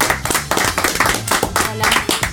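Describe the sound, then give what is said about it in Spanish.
Clapping as a guest is welcomed on a talk program: a dense, steady patter of many hands that lasts for over two seconds without a break. “Un aplauso para Virginia.”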